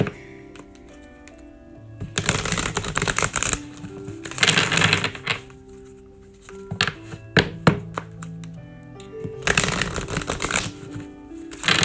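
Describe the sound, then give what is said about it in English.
A deck of oracle cards is shuffled in several loud, rapid bursts of riffling and slapping, with dull thunks and quieter gaps between bursts as a card is drawn. “So now we're going to pull you a oracle card, a wisdom of the oracle card, okay?”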